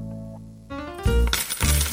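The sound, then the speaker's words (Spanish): Coins drop and clink together as a money sound effect. A ringing tone comes first, then a few loud, bright metallic bursts of jingling. “¿Escuchaste eso? Eso es plata ganando más plata.”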